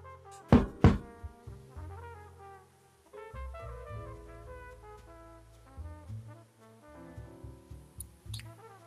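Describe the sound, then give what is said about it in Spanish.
A few hard, quick raps on a door sound close together near the start, then soft music with sustained tones carries on alone. “se levanta hasta acercarse a una puerta, en la cual hay un letrero que pone Sam Shogar. Y pica un par de veces.”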